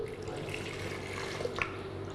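Chicken broth from boiled chicken, about 150 grams, being poured for a dipping sauce, a faint soft trickle of liquid with a couple of small drips near the end.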